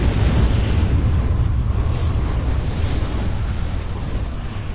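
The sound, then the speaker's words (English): An unshielded spaceship explodes into a ball of flame, a loud, sustained low rumbling roar that holds for several seconds and eases off slightly toward the end. “The unshielded exemplar exploded into a ball of spectacular blue flame, instantly killing everyone aboard.”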